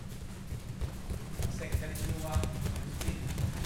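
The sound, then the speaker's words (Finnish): Many children's feet jog in a circle on a padded floor during a karate school warm-up, a busy, continuous patter of soft low thuds with voices in the background. “Täällä parin tusinan lapsen jalat joggaavat ympyrää pehmustetulla lattialla.”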